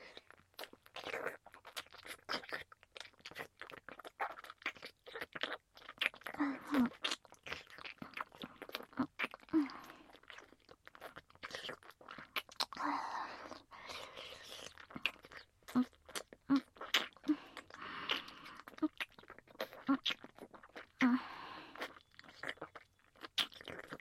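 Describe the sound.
Crunchy chewing of food, with many crisp bites and crunches in an irregular rhythm across the whole stretch, fairly faint and with no talk over it.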